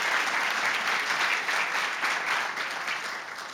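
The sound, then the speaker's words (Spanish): Applause from a church audience during a Sunday service, a dense, steady patter of many hands clapping together that holds an even level and eases off slightly toward the end. “Yo creo que eso merece un aplauso para el Señor. I believe that deserves a hand for the Lord.”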